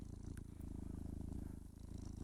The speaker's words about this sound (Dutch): Ja, maar dit is een spinnend katje.